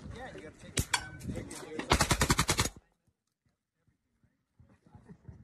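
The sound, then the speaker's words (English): A fully automatic shotgun fires a couple of loud shots, then a rapid burst of many blasts, followed by near quiet. “Yeah, that's not my trigger finger. That's actually a fully automatic shotgun.”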